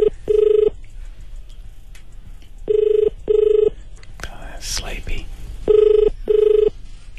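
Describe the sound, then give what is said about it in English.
Ringback tone of an outgoing phone call to a Costco store: three double rings of a steady, even-pitched purr separated by short pauses, with a brief burst of other noise between the second and third pairs. “We're calling Costco, making sure everything's okay and they're open today and operating.”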